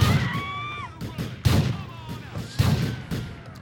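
Grenade explosions in the video game GTA IV: three heavy, sharp booms about a second apart, each decaying quickly, with thin whistling tones between them.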